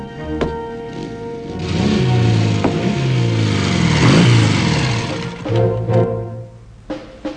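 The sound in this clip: Engines of two motorbikes and two cars racing along a narrow dusty track, loud revving with pitch that wavers up and down, swelling and easing again toward the end.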